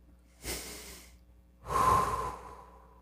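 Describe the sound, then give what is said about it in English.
Deep breathing during a guided, eyes-closed prayer moment: two soft, airy breaths alone with no talk, the second longer and louder than the first. “Close your eyes with me. Take a few breaths.”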